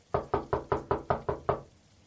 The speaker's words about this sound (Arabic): من اللي بيدق الباب بهذا الوقت وبين المطر هذا؟